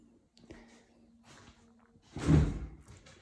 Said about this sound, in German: Deshalb werde ich auch jetzt schon die Fenster schließen.